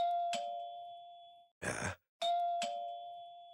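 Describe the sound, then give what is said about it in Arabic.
Doorbell at the front door rings twice, each chime a clear, bright tone that hangs and slowly fades, with a short noisy burst between the two rings. “ما هذه الوقاحة؟ رنين مستمر. ربما هذا ساعي البريد. سأفتح له”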